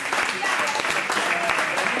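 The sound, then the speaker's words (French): Audience applause rings out after a correct answer in a football quiz, dense steady clapping filling the whole stretch at moderate loudness, with some voices mixed in. “On peut l'applaudir, parce que c'est la bonne réponse.”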